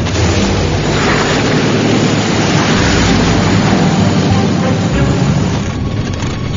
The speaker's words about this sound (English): AJ catches more than a few bumps as the DC-3 rushes across the snow.